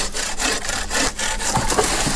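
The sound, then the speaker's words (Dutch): Volunteers sawing wood while pruning in the Drentsche Aa National Park, heard as many loud back-and-forth saw strokes in a steady, regular rhythm with no other sound. “Ze maaien, hooien en snoeien.”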